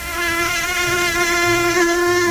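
Mosquito buzzing: a thin, high-pitched whine that holds steady and continuous for a couple of seconds, wavering only slightly in pitch, with no voices.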